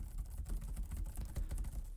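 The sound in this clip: Rapid typing on a computer keyboard: many quick, dry clicks in an uneven stream that runs through the whole clip, with no voices.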